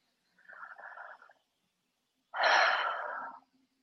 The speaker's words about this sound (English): Had to take a deep breath on that